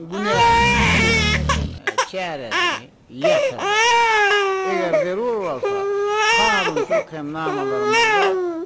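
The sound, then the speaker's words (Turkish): A baby cries loudly in long, high, wavering wails, several sustained bursts separated by brief catches of breath, with a short low rumbling sound at the very start. “Sonra olorun bebeği ağlap başlayar.”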